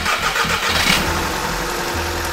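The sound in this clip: A roughly 20-year-old Skoda car engine starts on a freezing day after a jump start for its dead battery, producing a dense, loud, continuous churning roar that holds steady as it catches and runs.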